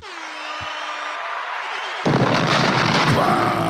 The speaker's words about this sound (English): Bombs.